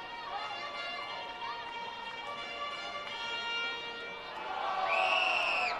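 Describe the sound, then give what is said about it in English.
A Thursday night baseball crowd murmurs at Segra Stadium in a faint, steady hubbub. Sustained tones rise over it near the end. “Thursday night crowd still getting into it here at Segra Stadium.”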